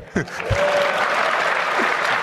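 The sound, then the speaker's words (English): Applause sound effect set off by a spoken word, a steady wash of clapping that rises right after a brief voice at the start and keeps going to the end. “Each time I say shit, something is clapping. This is cool.”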